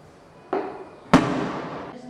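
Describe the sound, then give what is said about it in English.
Rubber-bullet gunshots at a West Bank demonstration: two sharp, loud bangs, the second stronger and followed by a long, rough decaying tail. “He's been shot in the foot with a rubber bullet.”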